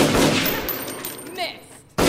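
A gunshot bursts out sharply and loudly at the very end, after a stretch of noisy, gradually fading rumble.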